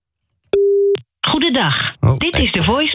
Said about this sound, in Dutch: Ik kan nog even een keer proberen te bellen natuurlijk met Marieke.